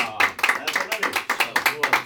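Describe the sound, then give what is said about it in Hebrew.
Audience applause for a yeshiva composer at a live event, quick, even claps in a brisk rhythm. “כפיים לאלי פרידמן!”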